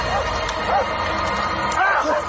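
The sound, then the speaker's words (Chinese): A black dog barks during a tense, chaotic scene, a few short yelping barks mixed with loud, agitated voices. “狗， 黑狗， 这狗疯了。”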